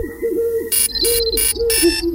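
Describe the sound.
A phone app's alarm clock sound: cooing, bird-like tones, then four bright, buzzy electronic bursts in quick succession. The alarm is loud and steady throughout.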